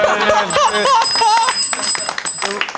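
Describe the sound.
A bell rings with high, sustained metallic tones that sit beneath people talking, lasting only briefly before fading out.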